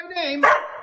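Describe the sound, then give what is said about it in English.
A dog gives a single short, sharp bark. “That's my dog. He knows. He knows when he sees the green.”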